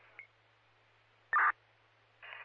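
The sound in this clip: Fire dispatch radio alert tones come as three short, band-limited bursts of electronic tone and static. The middle burst is the loudest, with a faint background hum between them.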